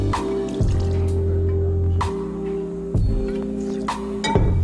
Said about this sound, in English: I'm gonna add my bourbon.